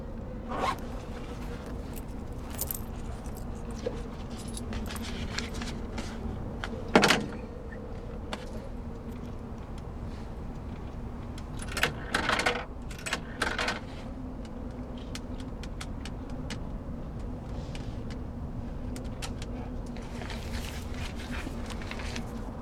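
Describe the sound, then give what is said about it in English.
Rummaging in a purse inside a phone box for change: zipper pulls, rustling and scattered small clicks, mostly quiet, with a few sharper knocks standing out. “She rummages in her purse, retrieving change and a telephone number on a piece of paper.”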